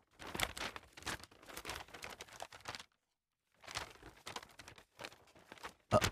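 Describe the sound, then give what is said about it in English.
A paper card being unfolded: soft crinkling and rustling comes in uneven bursts, broken by a short silent gap, then a sharper crackle at the end. “It's just one card. You don't have to fold it that many times.”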